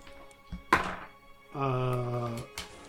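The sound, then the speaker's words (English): A crossbow firing ordinary bolts, with a sharp thunk followed by a sustained buzzing, harmonic tone and then another hard, short hit, all with no voices. “No, she's going to stay back, but is going to load her crossbow and fire 2 shots at Fred.”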